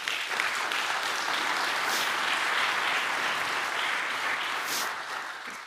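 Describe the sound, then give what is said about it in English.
An audience claps during a sermon in affirmation of the teaching; loud, dense applause holds steady for several seconds before thinning slightly at the end. “For some of you, first of all, I want to define that clap. That clap is affirming the Word of God and its teaching.”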